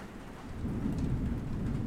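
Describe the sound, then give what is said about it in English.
Rain falls steadily in a thunderstorm while low thunder rumbles beneath the hiss of the drops. The sound is fairly quiet, with no voices. “I'm ashamed that I'm so afraid of storms.”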